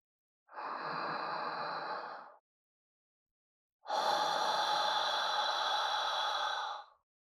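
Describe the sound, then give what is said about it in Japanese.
A woman exhales slowly toward the listener in two long, breathy releases of air, the first about two seconds long and the second longer and slightly stronger, separated by a silent pause. “私が息を吐くタイミングで、思いっきり吸って。”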